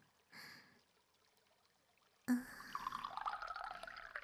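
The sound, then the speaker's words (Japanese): Hot water being poured: a brief splash first, then after a pause a steady, continuous pour runs to the end, faint overall. “こちらにもお湯を注いで、”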